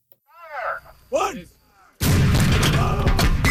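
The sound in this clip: Army Reserve howitzer fire during Exercise Western Sabre training at CFB Wainwright: after a few seconds of someone talking, a sudden, loud blast cuts in and rumbles on heavily until the end.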